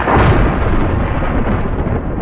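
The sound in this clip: Loud thunder rolls as one deep, continuous rumble that swells at the start and then sustains with little change, with no voices or other sounds alongside it.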